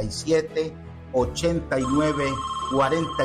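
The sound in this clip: A telephone ringtone from incoming calls to a call-in radio show with open phone lines, with steady electronic tones sounding under continuous speech.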